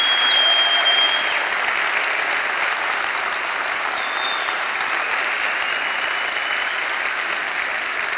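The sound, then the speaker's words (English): An audience claps and cheers as loudly as it can on request. A dense, steady roar of applause and crowd noise holds at full strength for the whole stretch. “Make as much noise as you can. Louder. Louder.”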